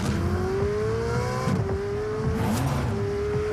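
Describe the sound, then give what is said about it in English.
A gas-powered Ferrari sports car engine revs hard in a loud, continuous roar, its pitch climbing steadily and dipping briefly a few times, as if shifting gears, with no voices present. “One of Ferrari's gas-powered sports cars sounds like this.”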